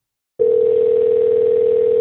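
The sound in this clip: A Skype call dialing tone: a steady, single-pitched electronic hum that starts abruptly after a brief silence and holds loud and unchanging to the end.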